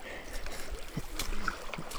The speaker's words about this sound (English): I'm about to cross the river.